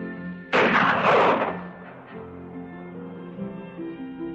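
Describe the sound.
A single rifle gunshot in a 1960 Western film, a sudden loud, sharp blast followed by a long rumbling decay that fades over a few seconds.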